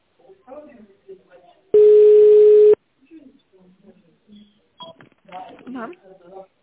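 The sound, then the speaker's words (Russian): A single loud, steady telephone tone lasting about a second, part of dialing in tone mode on a phone line, set between stretches of quieter talk. “Пожалуйста, набирайте в тональном режиме.”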